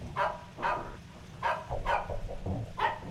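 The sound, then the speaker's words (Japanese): A dog barks by a lay-by on a mountain road. Several sharp, loud barks come at an uneven pace over a low rumble, with no voices. “その時犬の鳴き声が聞こえてきました。”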